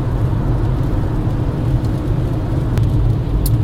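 A car driving home on the road: steady low engine and tire rumble, loud and continuous throughout, with no voices.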